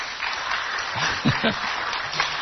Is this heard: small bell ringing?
no